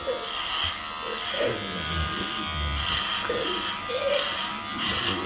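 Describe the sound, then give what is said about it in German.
An electric shaver buzzes steadily as it shaves a patient's head, a continuous, fairly loud, slightly wavering hum that runs throughout. “Private Barker beginnt damit, dem Patienten den Kopf zu rasieren.”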